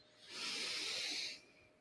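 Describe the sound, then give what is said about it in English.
One slow, deep breath drawn in, a soft airy hiss that swells, holds for about a second and fades, quiet and on its own. “let's just take three deep breaths to connect our energy. Breathing in”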